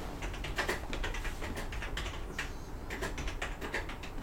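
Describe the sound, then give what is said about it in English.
Typing a Google search on a computer keyboard: a continuous patter of many quick keystrokes over a low hum, with no talk. “Google's not coming up with it. And I'm saying, typing in, where is the edge of Earth's atmosphere?”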